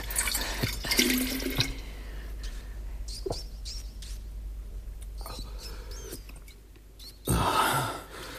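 Wine poured into a cup, with a burst of liquid splashing at the start and another near the end. Faint scattered drips and small clicks fall in the quieter stretch between. No talk.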